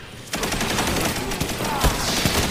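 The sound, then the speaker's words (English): Machine gun fire in the video game Destiny 2 begins after a brief quiet moment and continues as a dense, rapid, steady rattle of shots with a few sharper cracks. “Hey, machine gun.”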